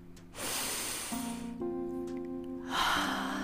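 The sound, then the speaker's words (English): A deep breath drawn in and let out, heard as two broad, airy rushes of breathing over a soft, sustained tonal drone, with the second rush slightly louder. “Take a deep breath in”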